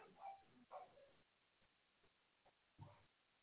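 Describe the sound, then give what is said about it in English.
A dog barks in the background, just a few faint, separate barks over near-silence. “Sorry if you hear my dog barking in the background. He's doing his job.”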